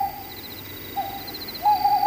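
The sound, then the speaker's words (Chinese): An owl hooting outside a door: three steady, sustained mid-pitched hoots in quick succession, the last one louder. “正说着，门外又传来三声猫头鹰叫”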